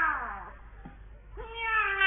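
A cat meowing indoors, two distinct calls: a first meow that slides downward and fades, then after a brief gap a longer, louder one that rises slightly and holds.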